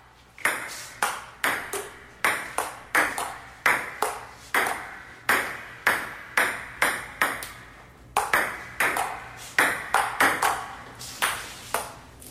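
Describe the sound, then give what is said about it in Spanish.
A ping-pong ball bounces many times, each bounce a sharp, bright click. The clicks come in quick rhythmic runs with short pauses between them, steady in loudness and heard alone. “el rebote de la pelotita de ping-pong, porque me pregunto, ¿en cuántas estaciones en el mundo entero y más allá, en sus contornos, se escucha esto en este instante?”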